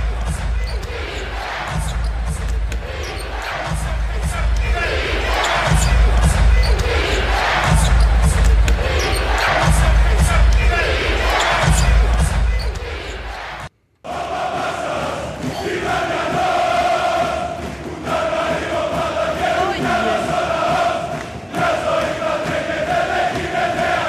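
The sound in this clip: Basketball game recordings, first from the USA, then from a European Champions League match: steady thumping ball bounces under a loud crowd roar, then after a brief gap a second noisy arena crowd with sustained tones.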